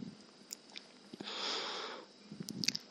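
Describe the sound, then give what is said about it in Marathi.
A slow breath is drawn in through the nose during a meditation exercise, a soft, steady hiss lasting under a second amid quiet surroundings. “श्वास घ्या”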